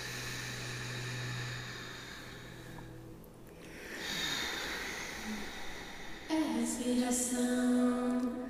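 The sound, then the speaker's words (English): A band takes a deep group breath before playing a song, a soft, breathy rush of air that swells and then fades. “Exhale. Everything out. Take a big inhale.”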